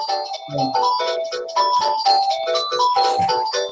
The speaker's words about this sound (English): That's our phone. Don't worry.